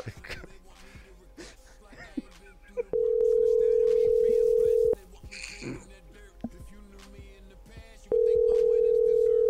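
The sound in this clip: Telephone tones from an unanswered call going to voicemail: two long, steady electronic tones, split by a stretch where people talk, with voices heard throughout.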